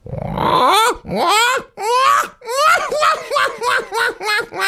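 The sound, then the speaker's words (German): A human voice imitates a black-headed gull with a string of wailing, laughing cries: a few long drawn-out calls first, then shorter, quicker cries that follow one another in a rapid run. “Jetzt kommt eine leise Lachmöwe. Und jetzt wird die leise Lachmöwe ein bisschen lauter.”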